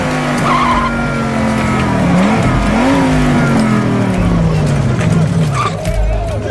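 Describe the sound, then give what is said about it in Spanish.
A fast car speeds past with its tires skidding and squealing. The engine roars continuously over a long, loud screech, with the engine note wavering throughout. “¿Necesitabas un vehículo? ¿Qué tan veloz es este auto?”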